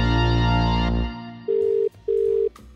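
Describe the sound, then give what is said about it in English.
A telephone call being placed: a loud, steady dial tone stops after about a second, then two short, even ringing tones follow in quick succession, with no voices. “let's type this number in and see what Aaron has to say”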